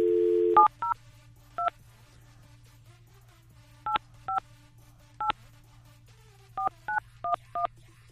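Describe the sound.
A telephone number is dialed: a short dial tone, then ten touch-tone beeps in irregular clusters, crisp and clear against a faint low hum.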